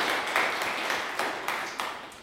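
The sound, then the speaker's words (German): Church audience applauding the choir, dense steady clapping that swells and fades in a few waves before thinning out. “Erstmal einen herzlichen Applaus für unseren Kirchenchor.”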